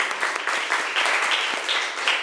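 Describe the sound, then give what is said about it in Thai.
Classroom children clap for a classmate, a brisk, steady patter of many small hands, moderately faint, with no voices over it. “เด็กๆครับปรบมือเป็นกำลังใจให้เพื่อนหน่อยค่ะ”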